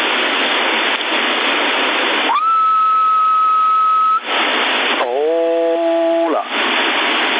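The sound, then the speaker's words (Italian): CB radio static, a band-limited hiss on an AM channel, breaks into a steady, loud whistled carrier tone. The hiss returns, then several overlapping steady whistle tones at different pitches sound before the static comes back. “Per esempio, guarda, dalla portante muta al fischio, guarda,”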